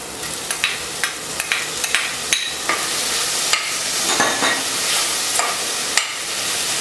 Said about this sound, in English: Now let the onions cook till they become translucent. Next, we add in two chopped tomatoes.